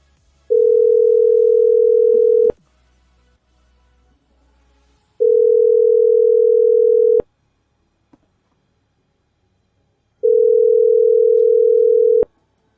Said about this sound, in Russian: Сейчас наберу я ей. А то сейчас уже 6 часов, хер дозвонишься. Сейчас набираю.